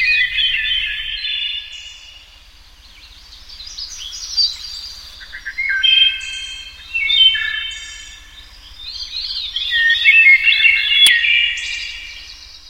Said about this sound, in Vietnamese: Con họa mi này đúng là một báu vật của hoàng cung. Tiếng hót của nó thật là kỳ lạ, có thể xua hết mệt nhọc, làm cho tinh thần của ta thêm sảng khoái.